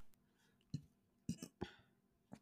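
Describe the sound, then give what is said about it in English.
A small, faint baby burp from a phlegmy woman: a few short, throaty bursts in quick succession, soft against near silence. “It's a little baby burp, but I am so phlegmy.”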